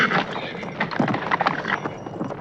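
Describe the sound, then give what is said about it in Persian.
Hooves clip-clop in an uneven run of many quick steps as a rider arrives on horseback, fairly loud and steady throughout. “حسام بیک سوار بر اسبی کموش از راه میرسد. اسب را آرام میکند ولی خود عصبانی است.”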